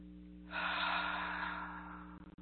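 A slow, deep inhale of breath rises into a soft, airy rush lasting over a second, then gradually fades over a low steady hum.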